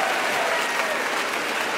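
Audience applause at Shoreditch Town Hall for a guest coming on stage at a live event: a loud, dense, sustained roar of clapping from a large crowd, steady from start to finish.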